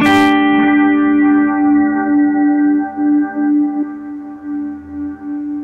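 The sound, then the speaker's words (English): Electric guitar volume swell fades in without pick attack and runs through a delay with cranked feedback and a compressor after it, leaving a loud, sustained ambient chord whose decaying repeats pulse and slowly thin out. “Very ambient. And my feedback is cranked. And I put another thing you'll see in the patch is that I put a compressor after the delay. Nice. To exaggerate so that you hear those decaying repeats.”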